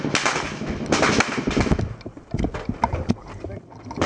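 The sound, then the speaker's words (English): Heavy gunfire in a combat firefight, with multiple machine guns firing from woods: a dense, loud barrage of rapid overlapping shots through the first two seconds, thinning afterward into scattered sharp cracks and short bursts. “I was right behind the wall from this guy, and it was just a heavy amount of gunfire.”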